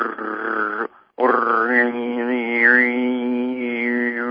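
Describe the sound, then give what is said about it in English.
A human voice imitates an annoying motor with a sustained, buzzing drone. It breaks off once for a short pause, then carries on steadily with slight wavers in pitch. “So say you're around some motor that's really annoying, and it's going, let's see if I can get a motor sound.”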